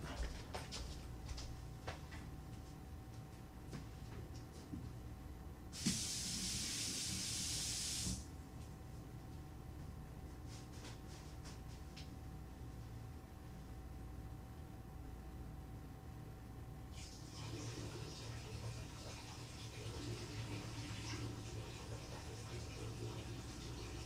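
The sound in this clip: Water being added to an appliance up to its fill line: a brief loud hissing rush, then later a softer, steady flow of running water.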